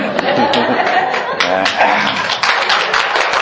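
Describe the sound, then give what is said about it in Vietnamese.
Audience clapping at a Buddhist dharma talk: dense, steady rapid claps run throughout, mixed with talking voices. “Quý vị nghe con giảng đừng bao giờ vỗ tay. Vì ở đây không phải là cuộc họp hội của đảng của nhà nước, mà đây là cuộc nghe pháp.”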